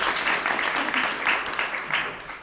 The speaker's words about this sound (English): So welcome, and let's have a round for William Shaw.